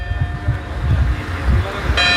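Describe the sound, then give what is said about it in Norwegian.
Church bells ring from a village church in Andalusia as a warning of approaching wildfire flames. Their sustained, bright tones sound under a person talking. “Fra kirken i Bedar ringte hun med klokkene for å varsle andre.”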